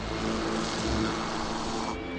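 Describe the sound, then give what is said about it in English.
A helicopter approaching a headquarters building gives a steady, broad roaring rumble of engine and rotor noise that stays at an even, fairly loud level throughout, with no voices. “Next, a helicopter approaches the OSS HQ.”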